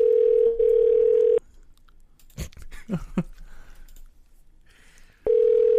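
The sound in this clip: A ringback tone on a telephone call: a steady low tone that stops, a stretch of faint clicks and rustling, then the same tone returns at the end.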